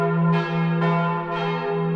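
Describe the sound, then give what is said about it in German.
Church bells ring out from a church in Egeln, Saxony-Anhalt, as a daily midday or evening peal. Loud strikes land roughly every half second over a rich, sustained metallic hum. “Glockengeläut von der Christophoruskirche in Egeln, also als ein Hoffnungszeichen in der Corona-Krise”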